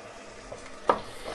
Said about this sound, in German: die Zwiebeln, der Speck sind angeschwitzt. Jetzt tun wir die Aprikosen dazu, die wir fein geschnitten haben, also fein gewürfelt.